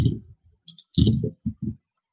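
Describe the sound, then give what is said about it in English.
Dice roll and clatter across a surface as several quick, irregular bursts of sharp clicks and rattles, fairly faint, separated by brief silences. “That was me rolling lots of dice.”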